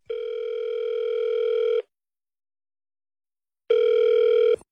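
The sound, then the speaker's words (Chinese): A telephone call rings out on the line: two steady, buzzing ringback tones, the first about two seconds long, then a silent gap and a shorter second tone, loud and clean with no talk. “给我们王总再打个电话，咱们来连线一下”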